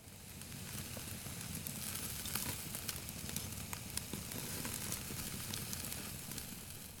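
Food sizzles as a roughly 300-gram portion grills at a campsite: a faint, steady hiss with scattered small crackles and pops running throughout, without talk.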